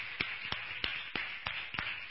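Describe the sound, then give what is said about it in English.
Rhythmic clapping at a church service, with seven even, quiet claps spaced about a third of a second apart in a steady beat. “Just give the Lord a round of applause for that.”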